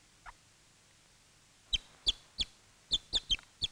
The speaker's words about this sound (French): Quand un poussin explore à quelque distance de la couvée, il peut aussi émettre à l'occasion une forme juvénile du cri d'offrande.